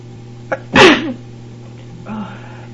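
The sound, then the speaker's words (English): A single loud sneeze during an allergy attack in a cinema or theater, with a soft breath just before it and a quieter sound trailing after. “that means probably everybody can hear me sneezing”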